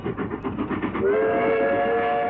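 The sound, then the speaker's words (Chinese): A train rumbles past overhead while slowing in mountain country, a dense low rumble joined after about a second by a steady, high whistle-like tone that holds loudly to the end. “火车隆隆地从三个人的头顶驶过，向着远方开去。”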